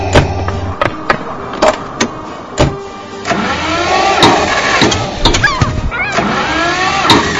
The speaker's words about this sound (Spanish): ¡Pinche carro de mierda! ¡Arranca, güey! ¡Arranca!